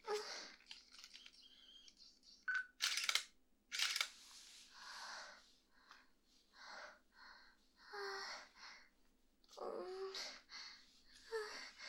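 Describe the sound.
Camera shutter clicks as photos are taken: faint, sharp bursts scattered irregularly among soft rustling and breathy noises.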